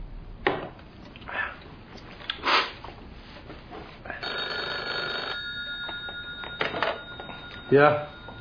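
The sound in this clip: A telephone being dialled: a few short bursts, then a steady, bright electronic tone of about two seconds, and a final brief burst, all fairly faint.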